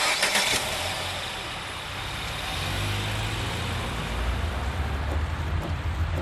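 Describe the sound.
A car engine starts and the vehicle drives off. A steady, broad rumble carries a low engine drone that strengthens partway through and then holds, with no talk.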